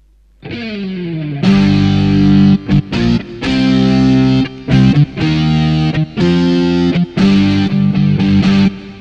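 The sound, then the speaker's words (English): Overdriven electric guitar opens with a gritty slide down in pitch, then strikes loud, distorted chords in a rhythmic pattern broken by short gaps. “One that you haven't heard yet is the overdrive guitar.”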